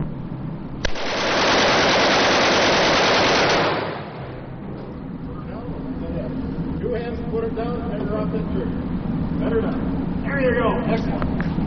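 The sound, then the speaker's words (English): A machine gun fires during a paid gun-shooting experience: one loud, sustained burst of rapid shots lasting about three seconds, after which voices talk. “I was able to shoot a machine gun. So let's go ahead and listen in.”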